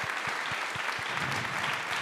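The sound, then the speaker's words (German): Audience applause after a quiz question: a continuous wash of clapping at a steady, fairly loud level that neither builds nor fades across the stretch. “Nochmal ein Applaus für Marc. Das war eine wundervolle, wundervolle Frage.”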